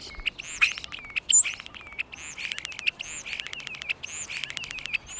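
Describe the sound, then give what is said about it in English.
European starling calls from a bird nesting or roosting in a crevice of a nearby wall in an urban setting: a busy stream of rapid chirps, clicks and whistled notes, with sharper squeaks scattered throughout. “And a European starling flies into a crevice in a nearby wall to nest or”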